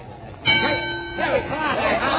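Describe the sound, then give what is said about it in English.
A boxing ring bell rings to start a round at a boxing match, giving a bright, sustained metallic ringing tone amid crowd voices and talk. “And there's the bell.”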